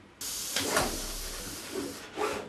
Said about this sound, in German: Vollautomatisch setzt die Maschine die winzigen Bauteile auf eine Leiterplatte.